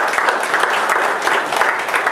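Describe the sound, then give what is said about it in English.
A church audience applauds during a sermon, a thick, steady wash of many hands clapping at constant loudness without a break. “Give the Lord a hand of applause, huh?”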